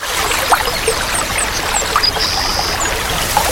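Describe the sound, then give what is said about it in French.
Spring water flowing in the Dolé massif at Gourbeyre, Guadeloupe, a continuous trickling and gurgling with light splashes, steady and fairly loud throughout. “À Gourbert, en Guadeloupe, l'eau naît au cœur du massif de Dolé.”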